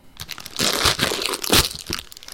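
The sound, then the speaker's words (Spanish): A bag of potato chips is opened, its plastic crinkling and crunching in loud, irregular bursts with a tearing rustle mixed in. “Ahí estamos abriendo la, bolsa de patatas fritas.”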